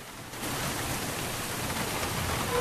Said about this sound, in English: standing on a platform, watching the rain.